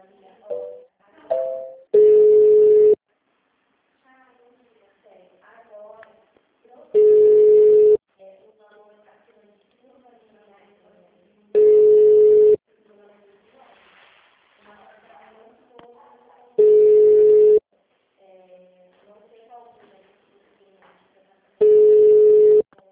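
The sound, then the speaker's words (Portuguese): Line tones sound while a call is transferred to a company's HR department: five steady, loud beeps of about a second each, evenly spaced roughly five seconds apart, with faint melodic sounds between them. “Só um momentinho que eu vou te transferir lá.”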